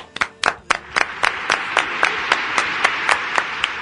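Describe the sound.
Hands clap in a steady, even rhythm, a long run of sharp, bright claps at a moderate pace without a break, sounding like a small group or single clapper rather than a large crowd.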